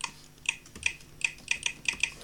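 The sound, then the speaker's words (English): Keystrokes on a computer keyboard as a password is typed, several quick, light clicks in an uneven rhythm, faint and alone. “Alright, so I'm going to type in my password.”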